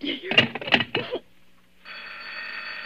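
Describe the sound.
A telephone bell rings in a continuous, steady trill after a brief stretch of a voice speaking and a short pause.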